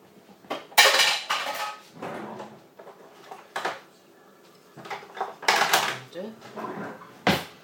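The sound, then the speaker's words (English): Pots and a wooden spoon clatter in a home kitchen while beans are cooked and a stove knob is turned: many irregular clanks, scrapes and knocks of cookware and utensils, some sharp and loud, others fainter. “A wooden spoon, turn on the knob.”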